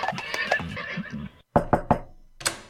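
Horses whinny in a long, wavering, high-pitched neigh, followed by a few sharp knocking hoof-like sounds after a brief pause.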